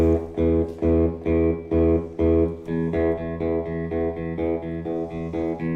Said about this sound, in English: I play with my fingers, no pick. So the way that I look at it is my thumb is a downstroke, my index finger is an up, and then the middle finger is also an up. So what you get is a sound like this. So just on a low E string,